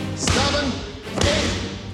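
Basketball slam dunks during a workout, heard as two heavy, booming thuds about a second apart over a steady wash of background noise.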